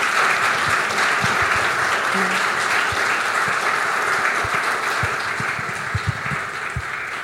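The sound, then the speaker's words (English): Audience applause, a continuous, dense patter of many hands clapping at a steady level, with a few sharper individual claps standing out and the sound easing slightly toward the end. “can we just give a big round of applause?”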